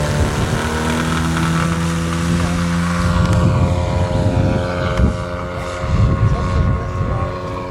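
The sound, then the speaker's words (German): Petrol-powered model aircraft taking off from the ground at a model airfield, its engine a loud, sustained buzzing drone rich in harmonics that shifts in tone partway through as it revs. “Und so hört es sich an, wenn ein benzinbetriebenes Modell vom Boden abhebt.”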